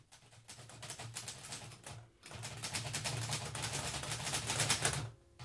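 An office typewriter clatters as a report is typed, with rapid key strikes in uneven runs and brief pauses near the middle and end, over a faint low hum.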